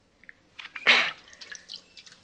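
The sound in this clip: A stone skips across an old lake: two faint taps are followed by a splashy burst and several light watery patters fading out.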